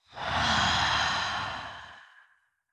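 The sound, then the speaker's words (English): A single deep breath is exhaled slowly during a guided meditation. The breathy sigh swells quickly, holds for about two seconds and fades out, alone with no other sound. “Deep breath, inhale. Exhale.”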